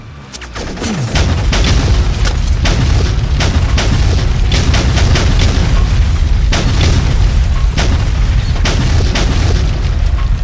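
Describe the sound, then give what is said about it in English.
Bombs explode on target in an air strike. After a brief quieter start, a dense, unbroken barrage of loud, deep booms and sharp blasts rolls on for the whole stretch. “Good hits. Bombs on target.”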